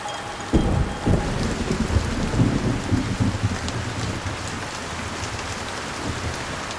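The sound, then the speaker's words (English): Heavy rain pours down on palm fronds after dark as a dense, steady hiss of drops. Low rolling thunder rumbles underneath during the first few seconds. “After dark, the rain pours down on Brad's body, drips off palm fronds, and into some coconut shells and the old flask.”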